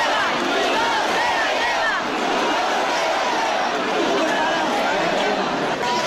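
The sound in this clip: Crowd noise at the Cascamorras festival in Guadix: a dense, loud babble of many voices with calls rising out of it, steady and unbroken throughout.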